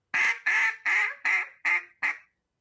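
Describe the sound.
A hunter blows a duck call: six loud, evenly spaced nasal quacks in a steady rhythm, each cut off sharply, the last one the shortest.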